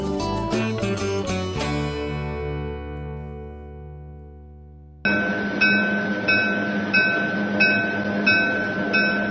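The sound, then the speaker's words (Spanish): A train rolls along with a steady, rhythmic clatter of wheels over rail joints, starting abruptly after a run of musical notes fades out. “Hasta la estación y se toma el tren.”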